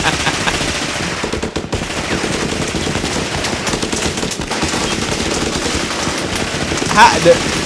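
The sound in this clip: Rapid automatic gunfire, with many shots fired in a dense, continuous crackle throughout and a slightly louder burst near the end.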